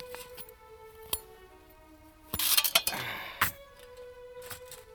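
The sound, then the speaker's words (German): Armour being taken off a sleeping warrior: a few sharp metallic clinks, with a denser burst of rattling and clinking in the middle, over faint sustained tones. “Die Rüstung drückt ihm auf die Brust, kaum dass er noch atmet. Ich werde ihn aus seinem Panzer befreien.”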